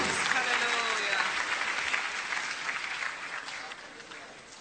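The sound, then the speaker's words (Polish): Applause from an audience at a church service and evangelistic meeting comes as dense, sustained clapping that holds strong at first, then gradually thins and fades toward the end. “Oddajmy Panu oklaski.”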